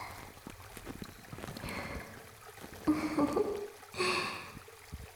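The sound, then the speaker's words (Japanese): Fingertips rub behind the ear and along the earlobe in close-up ASMR. Soft, faint swishing and hissing strokes run throughout, with a few slightly louder rubs toward the end. “お耳の裏側もまんべんなく、指先でこすっていって”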